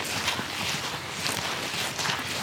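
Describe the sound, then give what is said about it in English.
Footsteps walk down a tidal beach toward gully systems, a steady run of soft, crunching steps over a constant broad hiss, with no speech. “we're walking down the beach at the moment”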